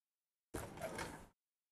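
A door being opened with a single smooth sliding or rolling sound lasting under a second, starting abruptly and stopping cleanly, alone with no talk.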